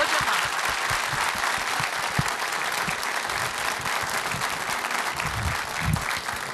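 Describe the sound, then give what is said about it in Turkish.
Audience applause after a folk song performance: dense, steady clapping that holds at an even, moderately loud level throughout, with a few louder individual claps standing out. “Bir alkış istirham edeyim efendim.”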